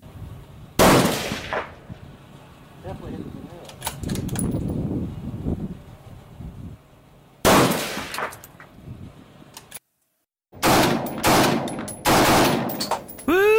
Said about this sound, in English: So I'm going to sprint down 300 yards and try and get this rifle on target as fast as possible.